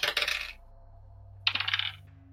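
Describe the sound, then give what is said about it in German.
Dice clatter across a table during a tabletop role-playing game: two separate rolls about a second apart, each a quick burst of hard rattling clicks, over a faint low hum. “würfelt mal bitte beide, mach mal bitte beide Wisdom Saving Throw.”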